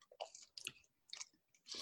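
Faint, crunchy chewing of food in a few separate bursts of bites, with quiet gaps between them and no talk.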